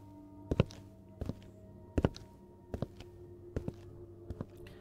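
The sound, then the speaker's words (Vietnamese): Footsteps of a prison guard approaching along a prison corridor: six evenly spaced, sharp heel strikes, several of them doubled, over a faint low steady hum. No voices are heard. “Minh Hải nghe tiếng bước chân của quản giáo dồn dập vọng tới”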